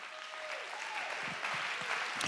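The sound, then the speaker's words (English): An audience claps hands in praise, a dense, steady wash of many hands that carries on loudly through the whole stretch without a break. “Let's clap our hands and give him great praise.”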